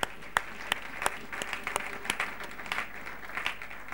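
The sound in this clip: A church audience applauds with sharp individual claps standing out over a steady patter of hands, holding at a moderate level and even rhythm without a break.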